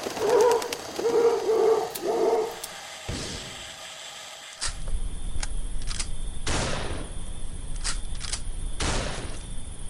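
Gunshots from a pheasant hunt: several sharp, loud reports spread over the second half. They follow a few seconds of soft bird cooing and a brief quiet gap.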